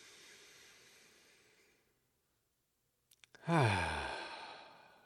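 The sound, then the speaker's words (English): A deep breath is drawn in with a soft, airy hiss. After a short pause and a few small clicks, it is let out as a loud voiced sigh that falls in pitch and trails away. “We'll take a deep breath before this one.”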